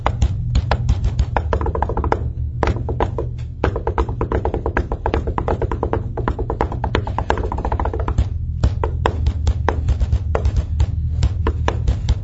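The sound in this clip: Fast hand drumming on resonant tabletops, a dense, steady stream of sharp taps and knocks that keeps going for the whole stretch with no talking over it.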